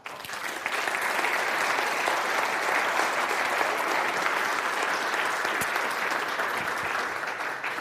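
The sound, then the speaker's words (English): A church audience claps during a morning service to welcome returning guests. The applause swells in quickly and holds as a dense, even wash of clapping at a moderate level. “So let's welcome them as they come.”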